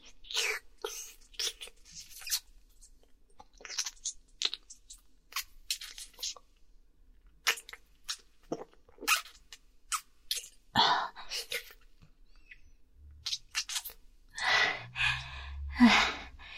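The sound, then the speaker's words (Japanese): Wet licking and chewing mouth sounds: many short smacks and slurps in an irregular rhythm, with breathy gasps between them and a louder cluster near the end. “とっても美味しいわ。すっごい舐め応えがある。”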